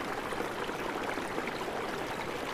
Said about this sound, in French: vous remarquez comme un léger filet d'eau qui vient se déverser